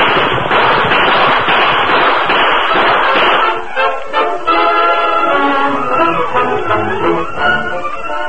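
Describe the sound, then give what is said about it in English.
Gunfire volley from riders on horseback in a western radio drama: many loud shots crackle together in a dense rapid burst that thins out after about three seconds. “We'll give them another volley from here. Keep shooting as you ride”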